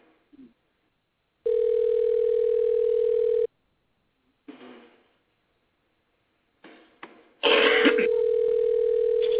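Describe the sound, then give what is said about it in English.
An outgoing telephone call ringing: two long, steady electronic ring tones at a constant pitch, separated by silence and a few short clicks and rustles, with a burst of noise over the start of the second tone. “I'm going to dial them up, see if we can get them on the phone. We'll give them a ring”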